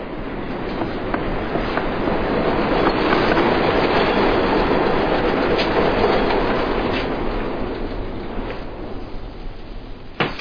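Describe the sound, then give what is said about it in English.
A train passes by near a home beside the tracks, a steady broad rumble that swells slightly through the middle and eases toward the end, with faint rhythmic clatter of wheels and no voices. “How often does the train go by? So often you won't even notice it.”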